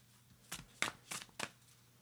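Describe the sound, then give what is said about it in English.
Shuffling of a deck of animal-themed cards: four short, crisp papery bursts at an even pace, quiet and alone against a faint background. “Let me pull out my animal cards and finish this up.”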